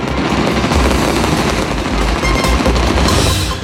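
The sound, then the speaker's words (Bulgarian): Gunfire from a ceremonial military tattoo gun salute, held in the evening in Vratsa. Dense, loud volleys crackle in rapid bursts that run together almost without a break. “Тържествена заря проверка във Враца тази вечер.”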